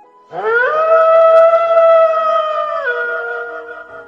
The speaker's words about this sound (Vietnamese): Đột nhiên, xa xa truyền đến tiếng sói tru